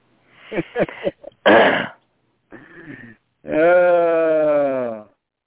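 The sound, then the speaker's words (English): A goat bleats in one long, wavering, strongly harmonic cry after a few short, rough throaty noises. “About mid-afternoon, I have to leave and come here and turn the goats loose. But honestly, last time I turned them loose, they didn't go very far.”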